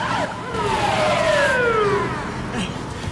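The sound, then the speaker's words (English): A police car siren wails as police arrive, with loud, continuous gliding tones sweeping downward in overlapping waves over a rumbling background. “The police arrive just as they're driving away.”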